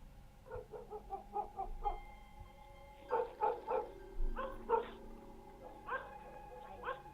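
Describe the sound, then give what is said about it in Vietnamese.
A dog next door barking: many sharp, faint barks come in uneven clusters separated by short pauses, each bark clipped and harsh, against a quiet background. “Bỗng nhiên, chó nhà bên kia sủa gằn lên từng tiếng.”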